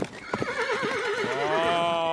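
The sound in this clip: Restless horses that have been kept indoors: a long, loud whinny with a strongly wavering pitch, preceded by a few clopping hoof strikes.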